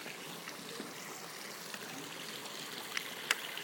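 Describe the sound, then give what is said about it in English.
A water fountain splashes in a steady, even wash of rushing water, fairly faint, with a couple of small sharp clicks near the end. “Right, there's another fountain here.”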